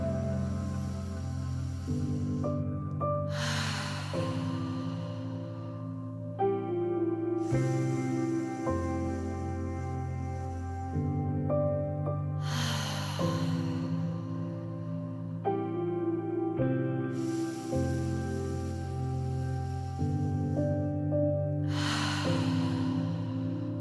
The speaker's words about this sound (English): Now, take three final breaths with an open mouth exhale.